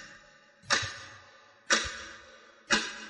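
A clock ticking: three loud, sharp clicks spaced evenly about one second apart, each with a short fading tail over an otherwise quiet background.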